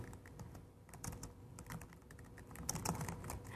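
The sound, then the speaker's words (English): Typing on a computer keyboard while entering text in a text editor, with many quick, irregular key clicks at a faint, steady level throughout. “So now I can type, hello, I'm over here now.”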